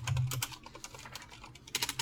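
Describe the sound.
Typing on a computer keyboard, with a cluster of quick key clicks at the start, sparse taps through the middle and a fast, louder burst of clicks near the end.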